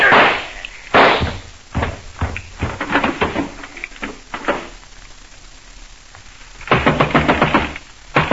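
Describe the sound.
Gunshots in a radio drama: many sharp, loud bangs fired in irregular bursts, some isolated and some close together, ending with a rapid cluster of shots.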